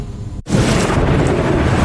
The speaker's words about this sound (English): It's fine. The storm is still pretty far away. Probably. Okay, never mind. If you can hear thunder,